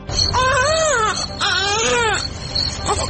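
Infant crying in a radio drama scene, a small son who has been held and carried for hours: two long, loud, wavering wails, then the brief start of a third.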